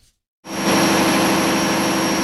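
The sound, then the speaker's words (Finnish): A huge biogas-fuelled engine generating electricity for the national grid at an eco-industrial centre in Espoo. After a brief near-silence it cuts in loudly and holds a constant, dense rumbling roar with a sustained high whine. “Valtava moottori jymisee MSU:n ekoteollisuuskeskuksessa Espoossa. Se tuottaa sähköä valtakunnan verkkoon biokaasulla”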